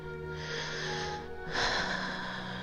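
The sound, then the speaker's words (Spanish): A slow, soft inhale is followed by a slow, slightly louder exhale. Both are quiet breathy rushes of air, each lasting around a second, with no talk. “Inhala y exhala despacio.”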